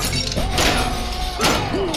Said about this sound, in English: Raise your swords! Lift your shields! Nomad! 3 strikes of your shield to Flora's honor!